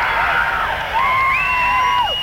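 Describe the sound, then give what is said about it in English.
Audience at a live song performance cheering and making noise, a continuous wash of crowd shouts with high whoops sliding through it, steady and fairly loud throughout. “It sounds like 30% of the audience will make some noise, but they won't really skip the audience participation.”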